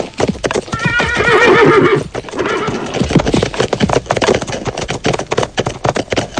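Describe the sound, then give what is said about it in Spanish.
Horses neigh and hooves clip-clop as riders mount. A loud, wavering whinny rings out first, then many sharp hoof clops follow in a quick, irregular rhythm to the end. “Montamos a caballo”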